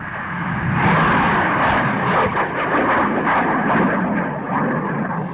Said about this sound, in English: Sounding rocket launches, like the one you hear in the background, constituted another major chapter in the year's scientific investigations.